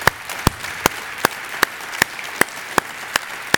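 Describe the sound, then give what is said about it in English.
An audience at a church service claps in steady unison, about ten evenly spaced, loud claps over a bed of scattered applause. “let's just give everybody who made that decision a hand today.”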